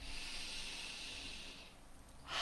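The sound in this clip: A speaker's deep breath: a soft, airy hiss of breath drawn out steadily before fading, then another breath starting at the very end; no speech.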